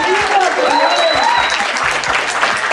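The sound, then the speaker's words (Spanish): A university audience applauds on request, thick, even clapping that holds at full strength throughout, with a few whoops and voices rising above it. “Chicos, aplaudan. ¡Que se escuche!”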